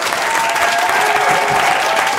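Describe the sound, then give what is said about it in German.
Spectators cheering and applauding after a council vote, a loud, continuous wash of clapping with excited voices held throughout. “Spontaner Jubel aus den Zuschauerreihen begleitete das Abstimmungsergebnis”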